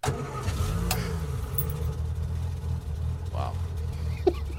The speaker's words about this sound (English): Did you just go out to the parking lot and record someone starting their motor just now?